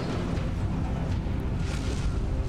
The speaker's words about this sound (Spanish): Ojo que Ikora acaba de destruir una nave ya solita.